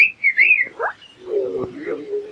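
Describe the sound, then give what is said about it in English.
A person whistles to imitate a groundhog's call, giving a few short, high, wavering whistled notes, followed by a lower, steadier sound. “that's a groundhog whistle.”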